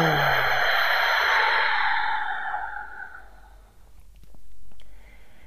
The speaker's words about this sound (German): Noch ein Atemzug mehr.